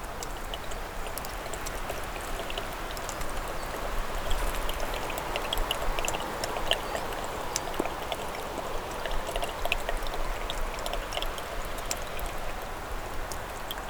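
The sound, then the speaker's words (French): Water droplets drip onto rock at a rocky barrier in a mountain cirque. Many scattered drips patter irregularly over a soft, steady trickling wash that continues throughout. “Une barrière rocheuse. Des gouttelettes d'eau.”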